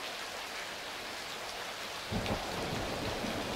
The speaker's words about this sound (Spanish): Entonces, bienvenida a la lluvia.